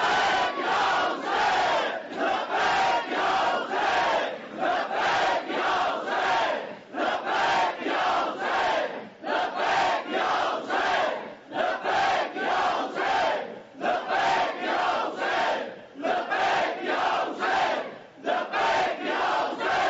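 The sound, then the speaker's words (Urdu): A large crowd at a religious majlis chants "Labbaik ya Hussain" together in loud, regular rhythmic shouts, each call separated by a brief gap and repeated steadily throughout. “ایک دفعہ پھر حسین کو پورے وجود کے ساتھ لبیک کہو, دونوں ہاتھ فضا میں مٹھی باندھ کے بلند کر کے لبیک یا حسین.”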